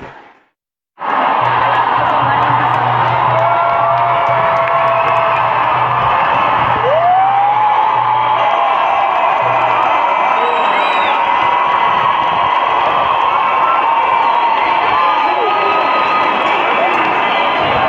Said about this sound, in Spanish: Estáis oyendo el grito colectivo de toda la manifestación.